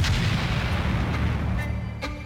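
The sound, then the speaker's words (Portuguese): A heavy, continuous rumble from a bomb blast in Funchal, thrown from a moving car at a political party's headquarters in the early morning. The deep roar holds at a steady, loud level throughout, with no sharp onset. “Uma explosão ecoa pelo Funchal.”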